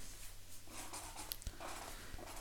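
Faint marker strokes on a writing surface during a spelling game, heard as soft, scratchy bursts of writing against a hiss of quiet background noise.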